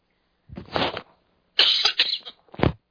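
Coughing from a tickle in the throat: three harsh bursts, the middle one longer and broken into several rough pulses, with short gaps of quiet between them.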